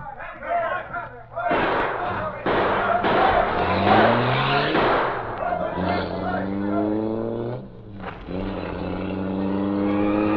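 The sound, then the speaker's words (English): A getaway car's engine revs hard as it speeds off in an escape with police closing in. Its pitch climbs in several repeated surges, while voices and commotion sound over the opening. “Come on, we've got to get out of here before we're trapped. Must hurry. Hurry. Black Beauty. Come on. I'll drive.”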